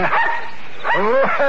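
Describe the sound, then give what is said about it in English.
Loud barking and yelping from dogs that have chased a man up a tree: a short burst of barks, a pause, then several sharp, higher yips in quick succession. “The dogs have got him treed again.”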